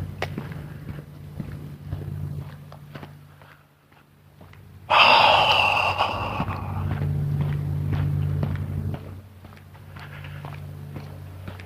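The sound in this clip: Footsteps of someone walking outdoors, a steady run of soft, regular steps continuing throughout, with a louder, broad rushing burst of noise around the middle that briefly rises over them.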